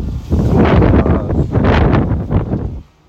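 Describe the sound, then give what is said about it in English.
Wind blowing on a back street, a loud rough roar that buffets the microphone almost continuously for nearly three seconds, then drops away abruptly. “And wind. Feels like winter.”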